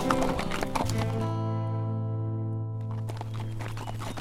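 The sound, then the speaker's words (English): Horses clip-clopping as two young gunslingers ride out of town, a steady walking beat of hooves alongside a sustained held tonal sound, with no voices. “the two young gunslingers casually rode out of town”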